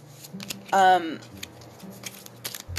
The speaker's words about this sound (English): Let's see here. One more card for current actions.